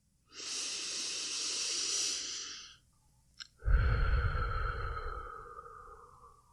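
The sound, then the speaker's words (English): A slow deep breath made of two long airy breath sounds, the second fuller and lower than the first. A short pause and a tiny click separate them, and the sound fades out at the end. “First, we breathe.”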